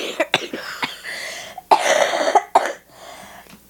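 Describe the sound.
A string of sharp, fairly loud coughs in an irregular rhythm, some short and clipped and others longer and rougher, with no talking between them.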